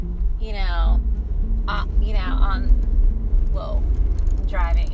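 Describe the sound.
A car driving past Rustic Canyon, its low, steady engine and road rumble running under people talking throughout.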